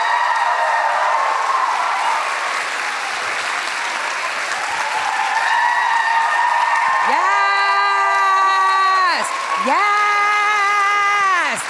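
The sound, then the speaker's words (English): A crowd applauds and cheers a comedian walking on stage. Dense, loud clapping with whoops runs throughout, and in the second half long, drawn-out shouted voices rise above it. “So please welcome to the stage Leah Delaria. Give it up for Leah.”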